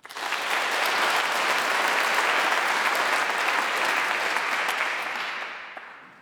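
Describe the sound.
Sustained audience applause welcomes guests, among them an actor who will read poetry. The clapping is dense and even, rising quickly to a steady loud level for several seconds before fading out at the end.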